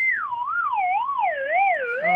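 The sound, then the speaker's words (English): A slide whistle is blown in one continuous tone that glides smoothly up and down again and again, drifting lower overall, steady and fairly loud with no other sounds. “now's not the time for your slide whistle. Can you please put that away? It's making everything so much worse having you do that every 2 seconds.”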